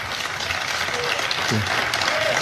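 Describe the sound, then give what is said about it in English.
Applause from an audience answering a speaker's words about every child being a gift from God, a steady wash of clapping at even strength, with a brief voice in the middle. “He says, it's a gift from God. People applaud.”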